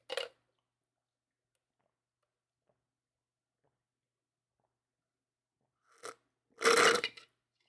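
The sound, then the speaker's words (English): Someone drinks a protein shake: a few short, faint mouth sounds of sipping and swallowing separated by long silence, then a louder, longer burst near the end. “delicious, dude. Protein shakes are good for the heart.”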